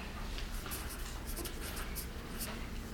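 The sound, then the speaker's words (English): A pen writes a name by hand on paper. Soft, scratchy strokes come in short bursts over a steady, even background noise. “So I'm going to write that here, just his name.”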